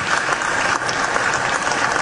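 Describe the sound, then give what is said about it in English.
Applause fills the Senate chamber after an oath of office is sworn, a loud, dense, continuous wash of many hands clapping with no break across the whole stretch. “And the Senate chamber burst into applause.”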